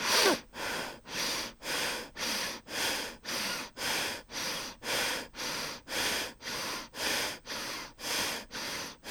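Rapid, rhythmic breathing during a guided breathing exercise, with many forceful, evenly spaced breaths of a steady, breathy hiss and no talking.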